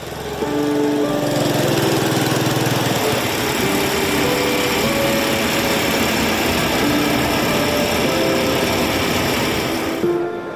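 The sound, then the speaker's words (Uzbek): A village water distributor's motorcycle engine breaks the dawn quiet in Samarqandlik village, Batken, with a loud, continuous buzzing drone whose pitch wavers and shifts, heard alone throughout. “Botkenning Samarqandlik qishlog'ida tong sukunatni mirobning mototsikli shovqini buzadi.”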